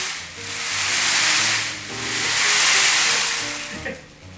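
A rushing hiss of many azuki beans poured and rolled in a bowl to imitate sea waves. The sound swells and fades in two broad surges, like surf washing in and out.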